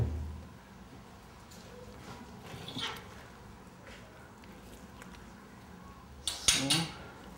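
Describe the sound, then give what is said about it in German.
The lid comes off a crate used to pack meat for zoo big cats: quiet handling knocks, one clatter midway and a louder rattling clatter near the end, with people speaking. “Das packen wir jetzt gleich in die Kiste rein. Dazu muss ich aber erst den Deckel hier abmachen.”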